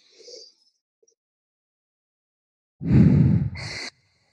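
A deep breath drawn during guided relaxation: a faint, short breath near the start, then after a long silence a loud, rushing breath that lasts about a second and eases toward its end.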